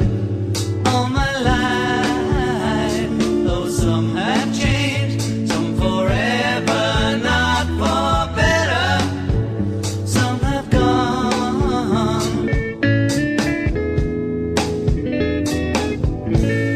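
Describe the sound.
A rock song played at a funeral: a full band and a singing voice carry a steady, continuous performance that stays loud throughout, with no talk over it.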